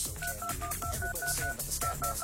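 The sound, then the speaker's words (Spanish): Telephone keypad tones beep in quick, even succession as a phone number is dialed, many short electronic beeps over dense, loud background noise. “Aquí tenemos un montón de números, ¿ok? Marcando ahora.”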